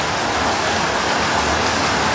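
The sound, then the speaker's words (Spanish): Rain pours down on a rainy afternoon, a loud, dense and steady hiss that holds even throughout with no pauses and no voices. “Está lloviendo, está lloviendo.”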